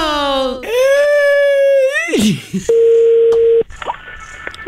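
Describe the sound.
A steady telephone signal tone sounds as one level beep of about a second. Before it comes a loud, wailing, crying-like voice with wavering, sliding pitch, and faint scattered sounds follow.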